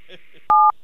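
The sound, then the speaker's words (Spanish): A telephone keypad tone for the digit 1 on an automated phone survey call: a single loud, steady two-note beep lasting about a fifth of a second, following a brief faint murmur. “Para participar en el estudio, marque el 1 ahora.”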